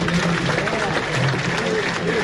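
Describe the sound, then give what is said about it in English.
An audience at a political gathering of registered voters applauds with a steady wash of clapping, while a voice speaks over it. “And then he asked everybody to applaud for those people.”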